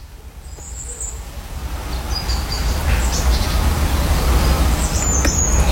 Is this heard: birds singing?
yes